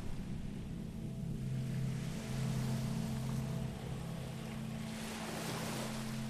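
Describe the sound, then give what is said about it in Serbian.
Sea waves with a continuous rushing wash of surf and wind noise and a low steady drone underneath, holding an even level throughout. “Slušaj. More.”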